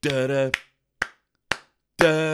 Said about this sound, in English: So it opens with the most out of sync white people clapping I've ever heard, mate.